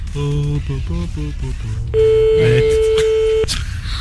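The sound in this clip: A telephone call being dialed to an elderly woman: a rapid series of keypad tones, then one long, loud, steady ringing tone before it cuts off.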